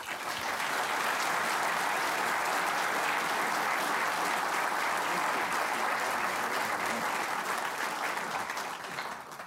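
An audience gives sustained applause to welcome author Douglas Brinkley at an evening book event. The clapping is dense and even throughout and eases slightly at the very end.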